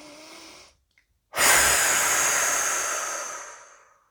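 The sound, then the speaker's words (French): Breath blown out forcefully through the mouth during a relaxation breathing exercise: a short, softer breath, a brief pause, then one long, loud, airy exhalation that slowly fades away. “nous soufflons tout ce qui pourrait nous tendre. Nous pouvons souffler une deuxième fois.”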